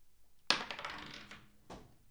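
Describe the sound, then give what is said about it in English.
Dice are rolled during a tabletop role-playing game: a sharp clattering rattle that quickly fades, then a second brief clatter. Both are fairly faint. “hate rolling dice”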